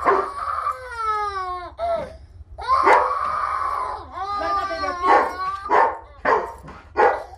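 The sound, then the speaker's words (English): A dog barks at an open bathroom door in a nursery, giving many high, whining yelps and barks whose pitch wavers up and down in uneven bursts. “Martine hurries upstairs to the nursery to find Abby barking at the open bathroom door”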